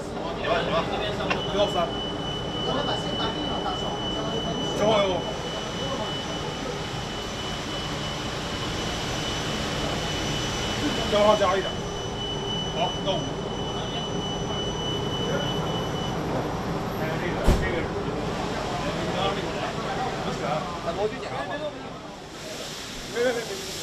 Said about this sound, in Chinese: 三号船被激光凤凰号的大心脏今天第一次点火试车。